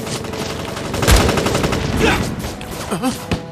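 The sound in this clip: Enemy machine-gun fire rattles in rapid, continuous bursts during a battle, loud throughout, with heavier bangs swelling near the middle and a sharp crack close to the end.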